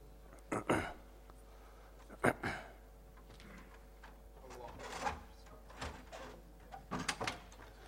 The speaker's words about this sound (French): Si quelqu'un peut fermer la porte, barakallahu fikoum.